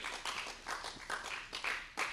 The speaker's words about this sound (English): So let's give you a round of applause.